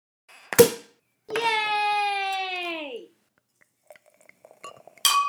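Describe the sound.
Drinking glasses clinking together in a toast for a drink of the week: a single sharp clink, then a long drawn-out vocal cheer that falls in pitch at its end, followed by a few faint taps and a final knock.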